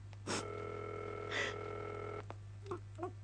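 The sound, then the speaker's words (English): A telephone ring tone sounds while an operator puts a call through to Ordway 3787. A steady, buzzing tone holds for under two seconds over a constant low hum, framed by short noisy bursts and followed by a few faint clicks. “We are ringing Ordway 3787 for you, caller.”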